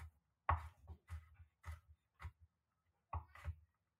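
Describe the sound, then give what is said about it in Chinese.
A knife chopping garlic: quiet, irregular knocks, some in quick pairs, with short pauses between bursts. “我现在这个速度是一比一啊，所以应该是不会太快了。好，蒜头切好了，接下来要切培根。”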